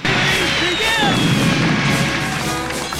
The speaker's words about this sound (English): Fireworks shoot out of the shell of the courthouse, onto which the clock is to be fitted.